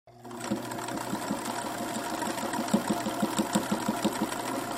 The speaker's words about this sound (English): That's the sound of a Singer sewing machine, number 99K.